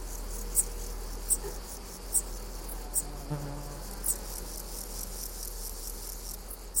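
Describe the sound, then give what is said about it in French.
Meadow grasshopper (Chorthippus parallelus) stridulating among other bush crickets: short, spark-like high chirps recurring at a steady, roughly one-second rhythm over a constant faint insect hiss, quiet throughout. “Et en fond sonore, des Corticus parallelus, criquet des pâtures. Ça fait comme une étincelle, le son, ça zic, zic, zic.”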